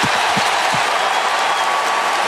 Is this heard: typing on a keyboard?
no